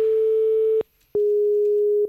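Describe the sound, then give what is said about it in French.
Unusual telephone ringing tones on an old phone while a call is being placed: a long steady mid-pitched tone, a brief silent gap, then a second long tone of the same pitch. “Oh, mais c'est quoi ces sonneries de fou?”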